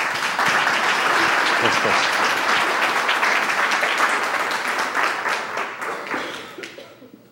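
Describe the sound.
Audience applause welcomes a newly ordained priest, an associate pastor: dense, sustained clapping that stays loud for several seconds before thinning and fading toward the end.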